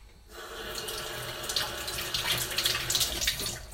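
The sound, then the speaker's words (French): Running tap water pours steadily as cherries are rinsed beneath it, a continuous splashing hiss that starts after a brief quiet moment and holds level, growing slightly busier toward the end, with no voices. “Je nettoie donc les cerises. Hop. Je passe juste un petit coup sous l'eau.”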